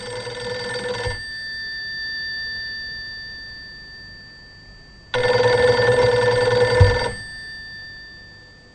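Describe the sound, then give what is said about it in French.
Telephone ringing comes down the line as a call is placed to a supervisor. A short steady electronic ring tone opens, and a longer one follows about four seconds later, with no talk over it. “Je vais passer un coup de fil à mon supérieur.”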